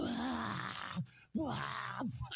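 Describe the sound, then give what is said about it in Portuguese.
A man crying loudly in long, wailing sobs, two drawn-out moaning cries with wavering pitch separated by a short gasping break. “Chorar feio pra lá, ô boca mole. Meu Deus do céu, que homem que chora feio.”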